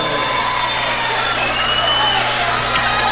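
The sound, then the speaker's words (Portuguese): Audience applause with crowd noise, a sustained and fairly loud mass of clapping that holds steady from start to finish without clear breaks. “Boa noite, galera! Bora aplaudir!”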